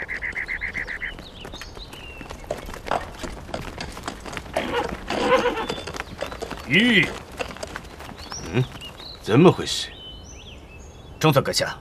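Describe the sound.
Horse hooves clip-clop on a road, from a horse with a damaged horseshoe. Many steady hoofbeats carry on beneath people talking.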